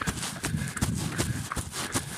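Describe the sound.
Running footsteps of a person jogging: a steady, quick rhythm of about six soft footfalls, evenly spaced over a constant background hiss.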